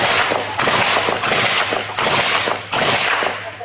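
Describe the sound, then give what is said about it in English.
Gunshots as sheriff's deputies fire at a man holding a shotgun on a balcony: several loud, harsh blasts come in quick succession, each with a dense noisy tail that runs into the next, and no voices. “Thousand Oaks deputies shoot and kill a man who was on a balcony with a shotgun.”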